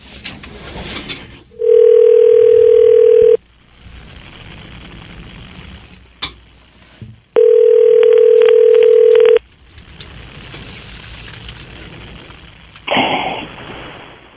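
Two long, steady telephone tones, each about two seconds, separated by a pause as a call is placed; a brief burst of sound follows near the end.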